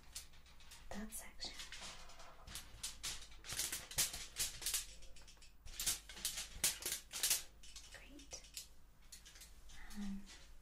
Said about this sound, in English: And pop this tin foil underneath.